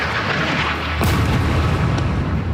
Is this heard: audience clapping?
no